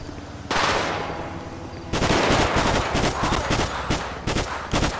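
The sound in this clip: AK rifle gunfire in a police video game. Loud cracking shots break in after a short lull, then turn into a dense, rapid string of many bursts.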